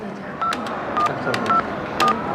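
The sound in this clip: Touch-tone keypad beeps as a hotel front desk dials a guest's room: four short, evenly spaced tones sit over a steady background hiss.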